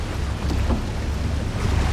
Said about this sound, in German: Das ist das Wassertaxi. Yippie, sie haben gedreht. Da sind sie.